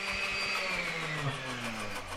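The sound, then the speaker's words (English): A blender motor whirs as it purees a batch of mussels from Petersburg, blended for shellfish safety testing in Sitka. A steady mid-pitched whine with a buzzing hum beneath it dips slightly in pitch partway through. “The batch of mussels in the blender right now is from Petersburg, a community 90 miles east of Sitka.”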